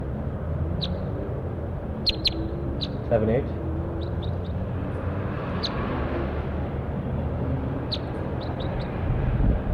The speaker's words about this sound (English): Bird 4-8 again. That was bird 4-8.